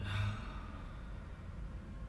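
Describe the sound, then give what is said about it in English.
Slow, deep breathing in through the nose and out through the mouth during a guided breathing exercise: a faint, steady breathy hiss that is slightly stronger at the start and continues softly throughout. “let's take some deep breaths in through our nose, out through our mouth. Breathe with me. In through the nose. Out through the mouth.”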